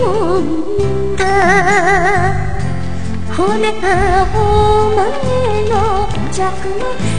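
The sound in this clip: Synthesized female singing from Hatsune Miku's Dark voicebank carries a wavering, vibrato-laden melody over a loud, steady musical backing, with sustained and gliding notes throughout.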